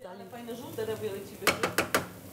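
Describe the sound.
Staff meal is being cooked in a pizzeria kitchen. Four sharp clattering strokes of a utensil against cookware come in quick succession, after a stretch of soft background voice and kitchen noise.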